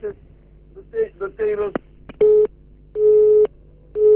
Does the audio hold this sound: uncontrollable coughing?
no